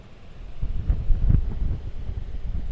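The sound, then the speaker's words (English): Wind blowing across the highest part of a hilltop farm, about 600 feet above sea level, making a low, rumbling buffet with uneven gusts and no voices. “Right now, if we were just quiet for a second,”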